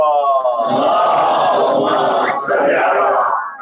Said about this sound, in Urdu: نعرہ حیدری یا محمد وعلی محمد